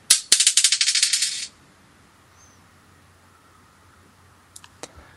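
Dice are rolled one at a time during a ghost-hunting experiment: a loud, rapid clatter of many sharp clicks lasts about a second and a half. Quiet follows, then a few faint clicks near the end.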